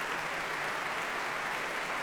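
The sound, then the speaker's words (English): Audience and orchestra applaud after a concert performance featuring a pianist: dense, steady, fairly soft clapping with an even texture throughout. “Applause from the audience, cheers as well, of course, and from the orchestra.”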